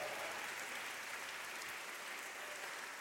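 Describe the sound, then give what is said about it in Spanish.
Steady, dense applause fills a worship service. The clapping is sustained and even for about three seconds, with no voices heard. “adorarle al Señor con un aplauso fuerte”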